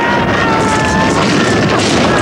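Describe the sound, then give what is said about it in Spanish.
A loud, sustained roaring rumble follows a half-track exploding after a Molotov cocktail attack, a dense wall of noise that stays heavy and unbroken from start to end. “Los soldados apostados en el balcón prenden los cócteles Molotov, esperan a que pase un semioruga y los lanzan encima. El semioruga estalla y los soldados saltan al suelo envueltos en llamas.”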